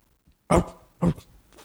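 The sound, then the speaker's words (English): Two short, loud dog barks or growling bursts from a pair of mastiffs summoned in a video game. A faint tick comes just before them, and the second burst is slightly shorter. “as you drop the patch onto the ground, two sort of mastiffs just grow out of it, and now you have two dogs looking around.”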